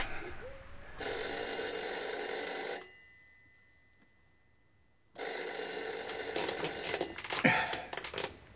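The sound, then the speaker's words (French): A telephone bell rings loudly in two long, bright bursts, separated by a stretch of near silence, with a few faint knocks after the second ring. “Dis donc, c'est le téléphone. Oui, en effet, je crois que c'est le téléphone.”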